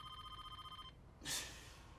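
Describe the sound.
A telephone rings unanswered, with a faint, rapidly pulsing electronic ring that cuts off within a second, followed by a brief burst of hiss.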